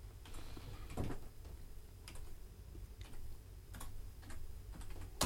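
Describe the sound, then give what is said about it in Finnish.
Sparse key presses on a computer keyboard give a handful of isolated, sharp clicks spaced about a second apart over a faint low background hum. “Noin, saadaan kone auki, kun se menee aina itsestään kiinni.”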